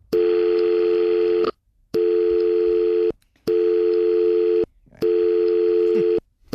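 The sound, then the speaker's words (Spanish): Ringing tone of an international phone call: four long, loud, steady buzzing tones in an even rhythm with short silent gaps between them, and a fifth just beginning at the end, with no talk. “Vale, Pablo, vale, vamos a llamarlo. Deme el teléfono. Este es el número de Pablo. Llamamos a Sydney. Venga. Le llama el técnico. Llamamos a Sydney.”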